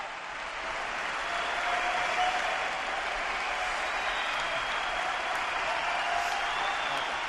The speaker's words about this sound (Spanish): No le dejan hablar. Sigue ovacionando en pie todo el Carpena y no dejan hablar a Rafa.